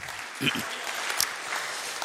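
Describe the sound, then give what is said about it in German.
Church audience applauding, with steady, even clapping throughout and a voice briefly audible over it. “Ja, das ist mal ein Applaus wert, ja.”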